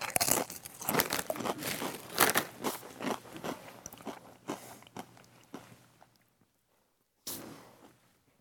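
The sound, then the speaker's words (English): Crunching and chewing of tangy Doritos tortilla chips: many dense, crackly bites and chews in close succession, fading out into near silence, then one more short burst of crunching. “I wouldn't put this in like my top tier of Doritos flavors, but that's edible, and I could easily polish this whole bag off”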